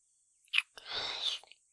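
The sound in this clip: Someone chews a mandarin orange. A short crisp burst is followed by a longer moist crunching stretch and a few faint clicks, all quiet and with no other sound.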